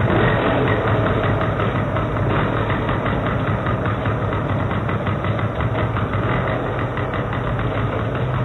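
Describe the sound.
A car engine that had been reluctant to start runs at a steady idle: a continuous low rumble with a faint rattling vibration, holding an even level throughout with no pauses or revving.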